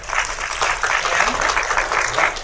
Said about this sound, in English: Please give a round of applause for Luna.